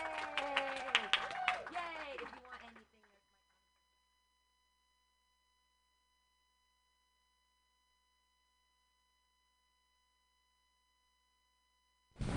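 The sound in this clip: Brief applause and a cheering voice greeting a comedian at a comedy show, loud for about three seconds before dropping to near silence, with a short burst of noise at the very end.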